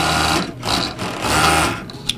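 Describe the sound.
A sewing machine whirs steadily as a seamstress stitches fabric for a shirt. The hum is continuous and loud, with small dips in pace and a brief click near the end.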